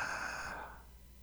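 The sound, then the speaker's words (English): A deep inhaled breath, a soft, airy draw of air that holds steady and then fades out, faint and alone with no talk. “take a deep breath on the count of three. One, two, three. Inhale.”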